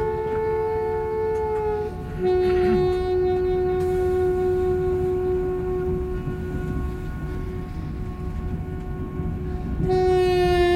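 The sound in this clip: A wartime 1940s night train with sleeper berths rolls along the rails with a steady, loud rumble. A sustained tonal horn or whistle holds over it throughout and swells again near the end.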